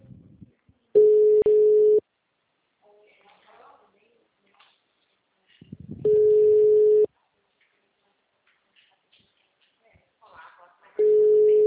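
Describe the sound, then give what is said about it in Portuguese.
Telephone tone after a dropped call: three steady, evenly pitched tone pulses of about a second each, spaced several seconds apart, with faint scattered sounds in the gaps. “Caiu a ligação?”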